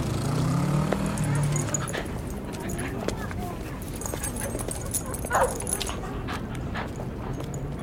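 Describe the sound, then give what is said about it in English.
Dogs barking and yipping: several short, sharp calls and a few whimpers break through a busy, continuous background, with indistinct voices underneath. “Lots of the dogs are chasing birds and barking at cars.”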